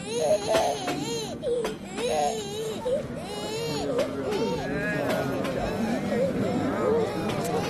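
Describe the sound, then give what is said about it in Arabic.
A toddler under two cries loudly on a train, with wailing sobs that rise and fall in pitch, and voices murmuring alongside. “وفي أثناء عودتهم راح الطفل سميح يبكي في القطار بشدة.”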